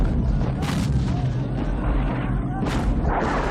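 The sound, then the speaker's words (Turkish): Gunfire shoots at a group of people: a few sharp, broad blasts cut through a constant heavy rumble. The bursts are brief and loud against the dense noise bed. “Tanrım. Bizi ateş edenler kim? Buralarda herkes bizi ateş eder.”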